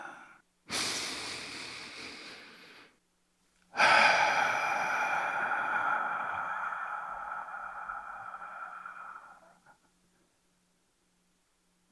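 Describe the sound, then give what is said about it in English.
A person takes a deep breath, heard as two long, soft, airy breath sounds separated by a short silence. The second is longer and gradually fades away. “I'm going to go ahead and take that deep breath.”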